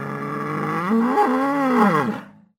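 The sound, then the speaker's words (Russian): A deep, bellowing roar from a tentacled sea monster struck between the eyes by a stone. One loud, sustained call with a wavering, throaty pitch, heard alone before it cuts off abruptly. “Он поднял с земли большой камень, кинул его и попал чудовищу прямо между глаз. Животное заревело, словно иерихонская труба.”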